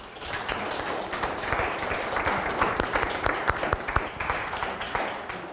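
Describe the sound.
Audience applause welcoming two speakers to a podium at a morning session: dense, steady clapping from many hands that holds an even level for the whole stretch.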